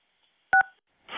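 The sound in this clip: A telephone keypad tone sounds as key 1 is pressed to connect a caller on a phone line: two very brief dual-pitch beeps close together, then a pause and a rush of noise.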